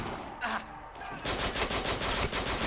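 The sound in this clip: Rapid gunfire in a video game: a brief burst of shots, then a dense, sustained volley of fast automatic fire that runs loud to the end.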